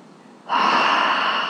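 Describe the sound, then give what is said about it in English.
A single deep breath, drawn in sharply as a loud, airy inhale that starts abruptly and holds steadily for about a second. “Okay, deep breath.”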